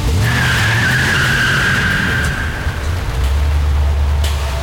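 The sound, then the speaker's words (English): Tires squeal loudly as a Camaro skids away on a wet road in the rain. A sustained, high screech lasts about two and a half seconds over a heavy engine roar that continues after the squeal fades. “drives the Camaro out into the rain”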